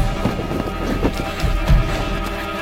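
Several people run in a hurry, their footsteps forming a fast, uneven series of thuds over a dense, rumbling background.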